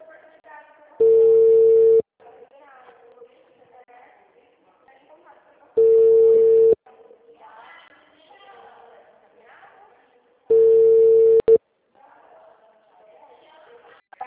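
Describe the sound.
Telephone tone after a dropped call: three steady beeps of about one second each, several seconds apart, with faint voices murmuring between them.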